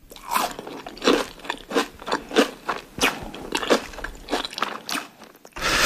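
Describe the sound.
Crisp fried potato pancakes, made from grated drained potato mixed with egg, salt, pepper and flour, are bitten and chewed. The result is many sharp, crackly crunches in a steady, uneven rhythm, with no talking.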